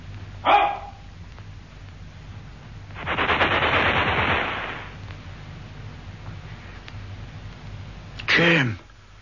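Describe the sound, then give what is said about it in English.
Gunfire in a military setting: a sharp crack near the start, then a longer, dense rattling burst of shots, followed later by another short harsh burst. “I shot him, sir.”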